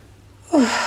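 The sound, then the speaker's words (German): A deep breath is drawn in through the nose during a guided relaxation exercise. After a brief quiet moment, a single airy inhale begins with a faint whistling tone and continues steadily to the end. “Dann kannst du nochmal tief einatmen über die Nase”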